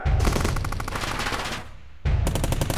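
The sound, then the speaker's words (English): Loud automatic gunfire as a group of men opens fire, a dense rattling volley that rolls on steadily, thins briefly, then erupts again at full strength. “Open fire!”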